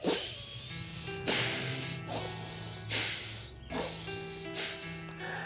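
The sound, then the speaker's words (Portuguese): Rapid, deep breathing in and out through the nose during a guided breathing exercise: forceful, hissing breaths in a steady rhythm, over soft, sustained music. “E volta a respirar profundo, pelo nariz, inspirando e expirando rápido e profundo.”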